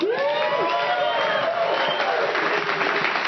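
A live audience at a real estate investing event in Redondo Beach cheers and applauds: dense, continuous clapping mixed with whoops and shouts, loud and sustained from start to finish.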